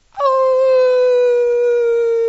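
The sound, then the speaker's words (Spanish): A person imitating a wolf howl with a single timid, sustained vocal tone. It jumps up briefly at the start, then holds a steady, slightly falling pitch for about two seconds, with nothing else audible. “Con un aullido tímido, a ver.”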